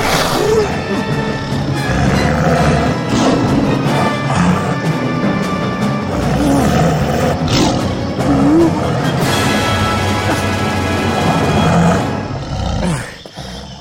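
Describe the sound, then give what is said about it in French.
A tiger roars during a hunt in India, a dense, loud, sustained growling roar that fills the whole clip before cutting off abruptly near the end. “Le seigneur tigre, là, sur cette grosse branche !”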